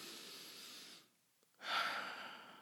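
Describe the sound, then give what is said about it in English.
A deep breath drawn in and let out: a long breathy rush, a brief silent pause, then a stronger airy exhale that slowly tapers, with no talking. “So do me a favor. Take a deep breath.”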